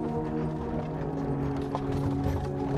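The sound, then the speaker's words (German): Rattling, clattering ride in a horse-drawn carriage: a steady, fairly quiet mix of creaking and mechanical knocking that runs unbroken throughout, with no voices. “Vorsichtig setzt du dich auf und stellst fest, dass du in einer Kutsche bist.”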